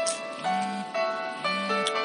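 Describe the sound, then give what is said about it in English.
An alarm going off: a steady electronic melody of stepped tones that cycles and repeats, fairly quiet, with no voices over it. “Remember to turn off this alarm.”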